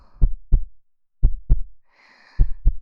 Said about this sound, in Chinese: 这是期待的心跳